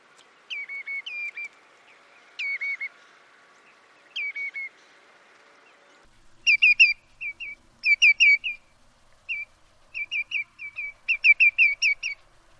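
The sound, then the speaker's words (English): Redshank calls followed by greenshank calls: clear, loud, whistled bird notes with a slurred drop in pitch, given in short, well-spaced groups. A few sparse groups come first, then a longer run of brighter, denser notes. “we're going to listen to redshank and greenshank calls and have a think about the differences between those two. So first I'm going to play you some redshank and then greenshank calls.”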